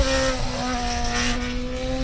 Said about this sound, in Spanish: El que mejor sonaba en aquella época era el BMW Williams de Kubica, que hacía diablura. Mira cómo reducían.